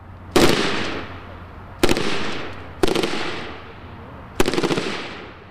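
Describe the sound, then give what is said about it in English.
Four separate bursts of M249 Squad Automatic Weapon machine gun fire by Marines at a firing range, each a sharp, loud crack-rattle that decays into a fading tail before the next burst, spaced irregularly. “We drive to a firing range where Marines are working with the M249 Squad Automatic Weapon.”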